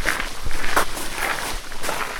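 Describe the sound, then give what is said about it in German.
Footsteps of children and a goat walking together deeper into a forest: a few soft, irregular steps over a steady rustling noise, with no talking. “Die Kinder und die Ziege gehen gemeinsam tiefer in den Wald.”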